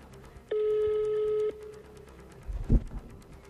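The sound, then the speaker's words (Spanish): A telephone rings on a redialed call: a single steady electronic tone lasting about a second, followed by quiet line noise and a few soft thumps. “Vamos a volver a marcar, porque somos cheverongos. Otra vez.”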